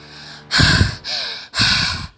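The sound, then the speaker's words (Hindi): Heavy, labored mouth breathing from someone whose nose is completely blocked by illness: three loud, rough breaths in a steady rhythm, each lasting about half a second. “ऐसे में वे अपनी मुंह से सांस लेते हैं”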